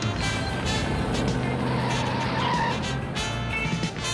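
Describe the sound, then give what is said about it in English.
A pickup truck makes a sharp right turn in an industrial alley, its tires skidding and squealing over a steady engine roar for several seconds, with no voices. “The pickup rolls down an industrial alley and over the train tracks before making a sharp right turn.”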